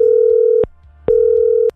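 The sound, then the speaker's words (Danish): A telephone ringing tone plays while a call is placed to a listener: two long, steady, mid-pitched beeps separated by a short silent gap, loud and alone over a faint low hum. “jeg håper Maren tar telefonen da”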